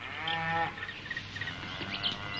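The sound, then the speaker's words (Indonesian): A cow mooing, a low harmonic call in the opening moments that gives way to a steady, noisy background of rustling. “Paman, coba dengar. Suara apa itu? Sepertinya... Iya, Bima. Itu seperti suara sapi yang kita cari.”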